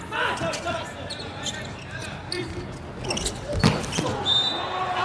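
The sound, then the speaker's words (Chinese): A volleyball serve, the ball struck with one sharp hit that rises briefly above a steady wash of crowd noise and voices. “一个不错的发球”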